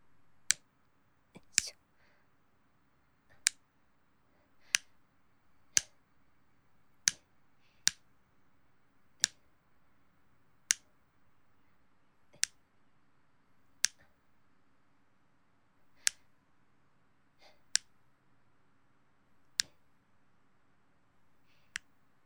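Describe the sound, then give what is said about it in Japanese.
Nail clippers cut a boy's hard fingernails, producing over a dozen sharp, crisp clicks at uneven intervals, with quiet pauses between snips over a faint low background. “やはり男の子の爪って硬いんですね。自分の爪切るよりちょっと力入れないとです。”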